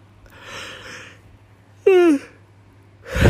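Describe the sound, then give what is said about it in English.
A person yawning, with a long breathy intake, then a short voiced moan that falls in pitch, and another breathy breath at the end. “I say as I yawn, I'm not cutting that out because it's too much hassle.”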